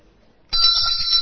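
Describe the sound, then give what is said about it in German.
A hand bell at a church service, struck once and ringing on as a steady, bright, sustained metallic tone with clear overtones, loud and alone. “Ich brauche nur etwas meiner Glocke.”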